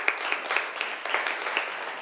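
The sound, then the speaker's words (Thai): Applause from students in a classroom lesson for two classmates who have just answered. Fairly faint, steady group clapping, with a few sharper claps. “ขอบคุณค่ะปรบมือให้เพื่อนทั้งสองหน่อยค่ะ”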